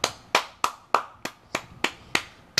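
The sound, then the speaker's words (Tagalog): Nine sharp hand claps ring out at an even, steady pace, each a crisp slap followed by a quick decay, with brief silence between them. “Sampung clap yan para kay Top Rank Babarum.”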